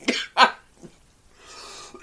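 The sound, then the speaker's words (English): Coughing and throat clearing from someone who choked on coffee: a couple of sharp coughs close together, then a smaller one, a raspy breath, and a final short cough. “Oh, my God, I'm choking. Worst customer service ever. It's the allergies there. Oh my God, I choked on my coffee while you were telling me.”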